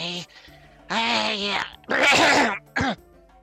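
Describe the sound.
Throat clearing from someone with a bit of meat pie stuck in the throat: four harsh, raspy, groaning bursts of varying length, loud and strained.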